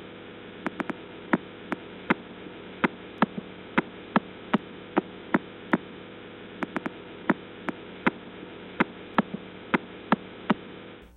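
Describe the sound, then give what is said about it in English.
Radio signal of pulsar 0329+54 turned into sound: sharp, evenly spaced clicks, a little under one per second, ticking over a constant hiss and low hum with no voices. “Pulsar 032954. This is what it sounds like.”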